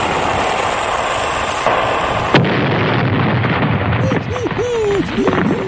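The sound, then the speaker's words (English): A cannon or torpedo firing sound effect from a naval attack: a sudden sharp boom cuts through a steady rushing roar. Rumbling noise and a few warbling, whistling tones follow. “Fire one, Captain.”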